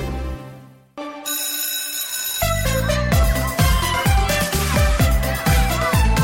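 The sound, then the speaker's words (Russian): A bright electronic ringing jingle with bell-like tones sounds loud and continuous. Repeated chiming notes ride over a steady rhythmic pulse after a brief quieter opening. “Наш звонок прозвенел, и мы снова в студии.”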